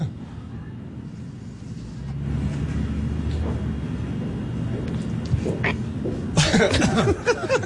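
Coughing after smoking, with a few harsh coughs that come late over a constant background rumble and murmur.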